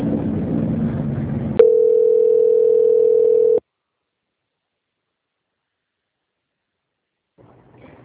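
Steady single-pitch telephone line tone while a bank call is transferred, lasting about two seconds after a burst of noisy sound, then cutting to silence before faint sound returns at the end.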